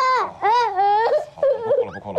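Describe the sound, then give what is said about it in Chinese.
A person cries with wavering, moaning wails and whimpers that rise and fall in pitch, in a few broken bursts. “你别哭。行了，不哭了。”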